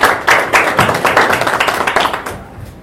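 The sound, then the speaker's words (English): Audience applause at a university welcome event: many crisp claps in a fairly regular rhythm that gradually thin out and fade near the end. “Please, let's put our hands together and introduce Professor Nancy Muka to tell us why we're here and stand up. Please, applaud.”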